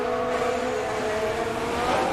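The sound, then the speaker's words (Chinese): Formula 1 race cars howl around the circuit as three of them battle for second place, their engines forming a loud, steady, high-pitched whine that holds without a break. “皮亚斯里、维斯塔潘、哈加尔现在呢这三辆车呢在争夺第二的位置”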